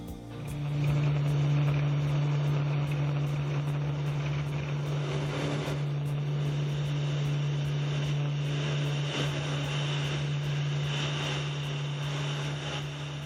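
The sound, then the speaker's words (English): A propeller airplane on its takeoff roll on an airstrip in Papua New Guinea gives a loud, steady engine drone with a strong low hum and buzzing overtones that lasts the whole time. “I am committed to take off as I pass that group of white cones on the left. Any attempt to stop the takeoff once I pass those cones would likely result in an accident. I am now committed to the takeoff.”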